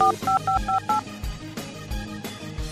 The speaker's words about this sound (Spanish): Voy a la línea telefónica, le marco, a ver si me contesta.